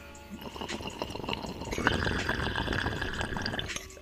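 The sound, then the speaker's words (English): Water gurgling and bubbling inside a bubbler pipe: a continuous wet burble that swells louder partway through and holds steady before easing off slightly. “I have my bubbler right here. Listen to this, man.”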